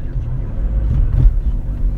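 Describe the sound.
A car drives slowly around in search of a parking spot. A low, steady engine and road drone runs throughout, with no distinct separate events.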